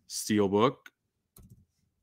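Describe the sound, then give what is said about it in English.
Computer keyboard typing as a title is re-entered: a person speaks, then after a pause a short burst of a few quick, faint clicks. “Let's type that again.”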